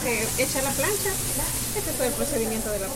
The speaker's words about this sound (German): Die Füllung ist schon vorbereitet. Darin sind Bohnen und Käse. Dann legt man den Teig auf das heiße Blech und brät ihn an.